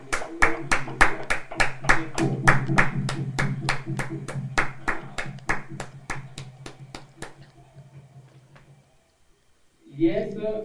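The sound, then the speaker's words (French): An audience at a healing and deliverance prayer service claps in a steady, even rhythm with many sharp claps over sustained voices. The clapping thins and fades into a short silence before a voice returns at the end. “Acclamons pour le Saint-Esprit, acclamons pour le Saint-Esprit.”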